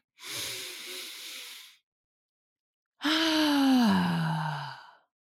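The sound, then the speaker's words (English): A deep breath drawn in, a pause of about a second, then a long breath let out. The out-breath turns into a voiced sigh that slides downward in pitch. Both breaths are fairly loud, with no talk. “I want you to take a massive deep breath right now as you're listening to this podcast. So breathe in with me.”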